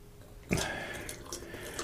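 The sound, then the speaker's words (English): A drink is poured back into a can. A sudden splash at about half a second gives way to a steady, fairly faint trickling and gurgling of liquid that runs to the end. “So, right back into the can. It's the nice thing about cans is you can pour them back in relatively easily, without making too much of a mess.”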